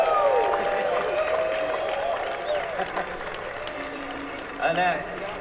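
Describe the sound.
An audience applauds the sound engineer at a live show. A steady wash of clapping fades slightly, with voices heard over it.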